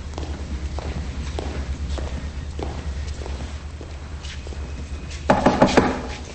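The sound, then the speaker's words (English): Footsteps of several people walking through a prison hallway to a visitation room, led by the warden. Steady, evenly spaced steps sound over a low hum, followed by a short cluster of louder steps near the end. “Now, inside, the warden leads Lisa and the Murphys to the visitation room.”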